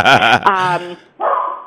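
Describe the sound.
A dog barks loudly in a few short, sharp bursts with a pause between them.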